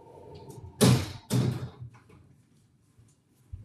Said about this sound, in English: Pardon the noise. Close the door.